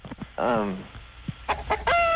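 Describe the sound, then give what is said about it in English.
A chicken clucks in a few short, sharp bursts, with one longer warbling, squawk-like call near the start and more clipped clucks toward the end. The calls are fairly loud and stand alone. “Chicken. Chicken. Sure.”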